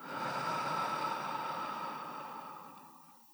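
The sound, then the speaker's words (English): A long, deep breath sighed out through the mouth during a guided loving-kindness meditation: a steady, airy hiss that holds level, then gradually fades away. “and sigh it out through your mouth. One more, breathe in and let it go.”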